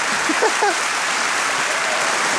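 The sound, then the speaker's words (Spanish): Audience applause rolls on as a loud, steady, rain-like patter of many hands, with a brief voice heard near the start. “Volvió la gente a aplaudir.”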